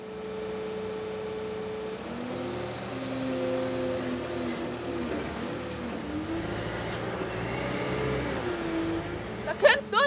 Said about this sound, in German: Das hört sich nur nach Luft an. Trotz neuer Dichtung, das Gerät bläst keinen Mist in die Liegeboxen.